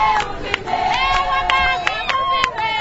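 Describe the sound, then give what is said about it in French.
Women from camp Elia and the village of Ongwa sing together to welcome a delegation that has come to evaluate the finishing works on a maternity clinic. Several voices hold sustained, melodic lines that run steadily through the whole clip. “C'est en chanson que les femmes du camp Elia et du village Ongwa ont accueilli la délégation venue évaluer les travaux de finition de la maternité.”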